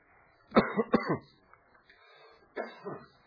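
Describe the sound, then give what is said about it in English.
Coughing after something went down the wrong pipe: a quick burst of several harsh coughs, a pause, then a couple more coughs, loud against near silence. “Excuse me, I had something went down the wrong pipe there.”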